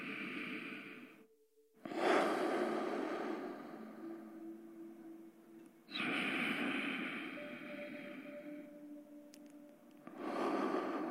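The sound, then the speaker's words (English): Slow deep breaths in a guided meditation: long, airy inhale-and-exhale cycles, about three in all, in a steady rhythm, with a faint low tone humming underneath. “let's begin by taking 3 deep breaths.”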